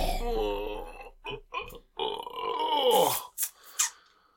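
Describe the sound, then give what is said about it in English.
A full man groans after a meal of fish and chicken, making several drawn-out, low, throaty groans with burp-like grunts in between, uneven in length and fairly loud. “I'm making just these awful groaning noises.”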